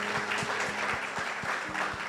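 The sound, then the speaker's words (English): Applause from a church audience after a prayer, a dense steady patter of clapping running throughout, with a regular low thumping pulse beneath it. “Yes, let's give a round of applause.”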